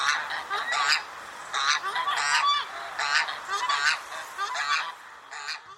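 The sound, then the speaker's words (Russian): Geese honk repeatedly, a white-fronted goose and a swan goose, with many nasal calls in uneven bursts that overlap and crowd together, loud throughout. “А вот это белолобый гусь. А это сухонос.”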